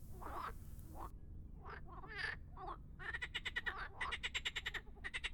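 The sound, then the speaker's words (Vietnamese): Croaking of many large frogs, bigger than a hand, swarming and climbing over one another in a grave pit. Scattered uneven calls give way to a loud, rapid run of regular pulsed croaks. “Số lượng ếch nhiều đến mức mà chúng phải lúc nhúc bò lên nhau. Chính vì thế mới phát ra những âm thanh nhóp nhép,”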